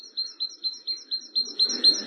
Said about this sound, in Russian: весна идет, и выслала крылатых оповестителей, пернатых глашатаев. Тут уж вслушивайся и примечай, у всякой пташки свои замашки.